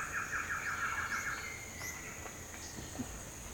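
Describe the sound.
A male Black Antshrike answers playback with a quick series of short, repeated notes in the first second. The notes are fairly faint and sit over a steady high insect drone, and a few thin calls follow.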